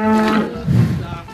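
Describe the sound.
A cow moos on a farm, one loud drawn-out low call that starts with an even tone and ends in a rougher, deeper bellow.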